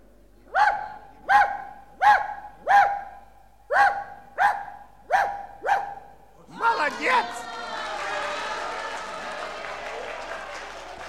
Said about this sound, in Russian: Это собака